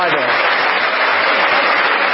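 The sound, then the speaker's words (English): An audience claps during a political speech: dense, sustained applause that sounds somewhat muffled and stays at a steady, loud level throughout. “A lot of clapping.”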